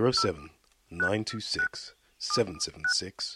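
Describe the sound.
Telephone keypad DTMF tones sound as a number is dialled, several short pitched beeps mixed in with voices.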